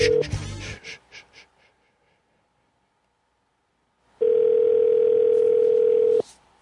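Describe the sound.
A telephone busy-line tone sounds as one steady, loud hum lasting about two seconds, following a brief burst of noise and a long silence.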